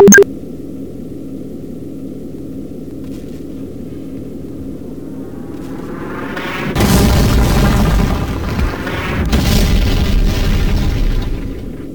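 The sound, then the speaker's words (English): Two heavy booming detonations of intercepted missiles, each rolling on for a couple of seconds, the second a little softer. A steady low hum sits under them, with a short click at the very start. “Detonation at 069 degrees 532 meters. Detonation at 316 degrees 197 meters.”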